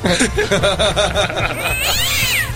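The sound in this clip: A cat meows and caterwauls in several loud, harmonic, whiny calls that run into a longer drawn-out yowl near the end.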